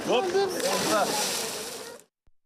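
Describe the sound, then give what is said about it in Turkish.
Sea water splashes and sloshes as people swim in the Bosphorus on a hot 33-degree day, a bright, noisy wash under talk that cuts off abruptly near the end. “33 derece hava var, deniz suyu harika. Boğaz sularında yüzüyoruz.”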